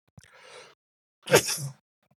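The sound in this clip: A single sneeze: a soft breathy intake comes first, then after a short pause a sharp, loud burst of air that quickly dies away.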